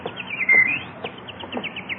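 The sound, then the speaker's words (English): A bird on a sunny lawn gives a series of short, high chirps. The notes come in quick, uneven bursts and are fairly faint, with no voices over them. “look at that beautiful bird on your lawn. Ah, look, he's hopping over to us.”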